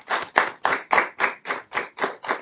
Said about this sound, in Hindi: उनका अभी हम करतल ध्वनि से स्वागत करते हैं।